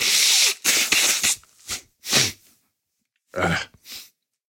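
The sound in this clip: Nose blowing into a sweater for lack of a tissue: a series of forceful, breathy snorting bursts, some clustered and others separated by short pauses, fading to softer puffs toward the end.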